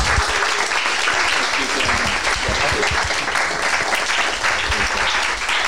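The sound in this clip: Audience applause welcoming two speakers to the stage at a weekend gathering: dense, steady clapping that continues evenly for about six seconds.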